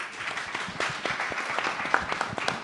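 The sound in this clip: An audience applauds after a speaker's introduction, with steady, moderate clapping from many hands and a few sharper individual claps standing out.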